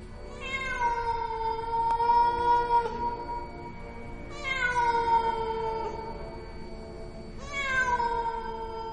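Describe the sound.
A cat meows on a roof, giving three long, wailing meows spaced a few seconds apart. Each cry is strongly tonal and slides downward in pitch as it draws out.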